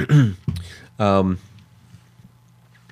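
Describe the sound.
Throat clearing by a man, two short, harsh voiced bursts about a second apart, the second one longer, followed by near quiet.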